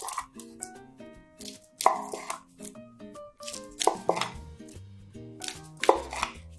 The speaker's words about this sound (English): But of course you always like to slice it.